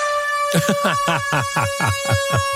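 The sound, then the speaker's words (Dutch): A steady, sustained ship's-horn-style tone used as a signal at a hotel pool area holds one even pitch throughout, under continuous talking voices. “Een soort scheepshoorn.”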